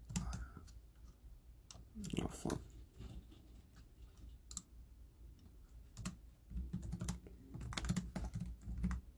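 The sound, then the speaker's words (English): Typing on a computer keyboard: irregular bursts of quick, light key clicks with short pauses between runs, fairly faint throughout. “I'm just gonna like type in Lily.”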